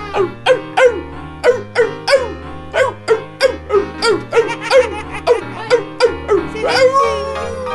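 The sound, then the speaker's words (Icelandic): A dog barks in a steady, regular rhythm, many short yelping barks over a low, stepping bass line of music. “Krakkar, sjáu þið, þarna kemur hundurinn hlaupandi.”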